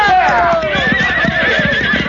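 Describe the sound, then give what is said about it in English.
Horses being ridden: a loud whinny whose pitch falls, over a steady rhythmic clip-clop of hooves. “Now turn them horses around.”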